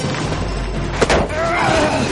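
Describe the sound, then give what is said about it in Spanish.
Dull blows land as fists strike the stomach and leg during a fight on the metal boom of a crane, a short thudding impact rising sharply out of steady background noise. “Moyaka le agarra del cuello, Bon le sujeta la mano y le golpea el estómago y la pierna.”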